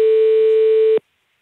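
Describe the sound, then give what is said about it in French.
A telephone line tone sounds when calling a company's landline: one steady, loud, buzzy tone holds for about a second and then cuts off abruptly, leaving silence. “on appelle sur le numéro fixe de l'entreprise.”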